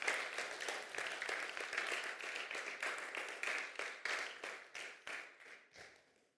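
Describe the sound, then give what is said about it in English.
Faint applause from a church audience welcoming a boy before his baptism, dense even clapping that thins out and fades toward the end. “Would you guys welcome Owen? Give him a hand.”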